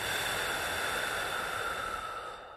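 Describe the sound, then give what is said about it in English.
A deep breath blown out slowly during a calming sleep meditation, heard alone as a steady, soft breathy rush that holds evenly for most of its length and then fades away at the end. “And let's take one more last deep breath in and blow it out.”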